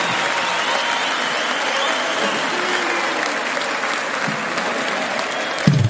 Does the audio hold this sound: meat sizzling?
no